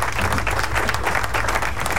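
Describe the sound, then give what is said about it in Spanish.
A crowd applauds, with dense, loud, continuous clapping that holds steady throughout the short burst, without talk. “Aplauso, please.”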